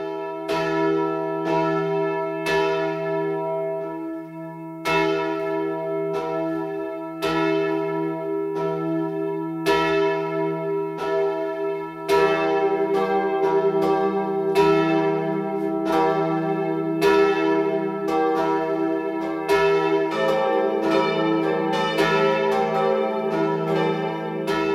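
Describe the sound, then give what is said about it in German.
Midday bells ring from the Catholic parish church St. Jakobus der Ältere in Ebing, Upper Franconia, with many resonant strikes in a steady rhythm. A second, deeper bell joins partway through, thickening the peal. “BR Heimat, 12 Uhr läuten. Es ist 12 Uhr. Das Mittagsläuten kommt heute von der katholischen Pfarrkirche St. Jakobus der Ältere im oberfränkischen Ebing.”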